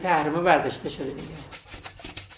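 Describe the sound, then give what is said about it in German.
Scrubbing of a washbasin in an office: a steady back-and-forth rubbing in a rhythmic series of soft, hissing strokes, after a short voice at the start. “schrubbt noch schnell ein Waschbecken, bevor es ins nächste Büro geht”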